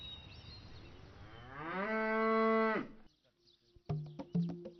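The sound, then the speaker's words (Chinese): A cow in a herd being fed at 4 a.m. before a seasonal move gives one long, loud moo that rises in pitch and then holds steady. A series of sharp clattering knocks follows. “出发前，他要让牛群饱餐一顿。”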